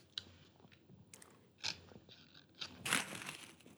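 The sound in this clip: Crunchy bites into a chocolate biscuit filled with cream, a few separate crackling crunches with soft chewing between them, quiet and without speech.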